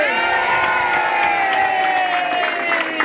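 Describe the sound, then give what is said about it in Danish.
A studio audience at a Danish radio show cheers and claps in a loud, steady roar of voices and hands that holds unbroken for about three seconds. “Jeg synes, der bliver jublet godt igennem.”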